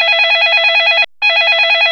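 A telephone ringing with a loud electronic warble: a rapidly trilling high tone in two bursts split by a brief silent gap.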